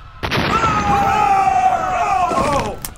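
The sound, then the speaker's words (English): An explosion blast hits abruptly and roars on as a loud, sustained rumbling wash with whining tones. It lasts about two and a half seconds before cutting off. “How did we survive that blast?”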